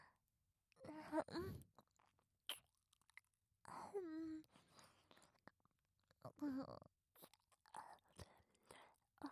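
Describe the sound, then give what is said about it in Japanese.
Ear licking in an ASMR roleplay: soft, wet slurping and smacking sounds come in several separate bursts with quiet pauses between them, mixed with breathy sighs and whispering. “はい、 耳なめですね。ご奉仕させていただきます、ご主人様。”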